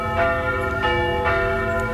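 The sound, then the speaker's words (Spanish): Church bells ring to call people to mass in a loud, continuous metallic peal. Overlapping sustained tones are renewed by fresh strikes roughly every half second, with no voices. “Las campanas llamándole a la misa.”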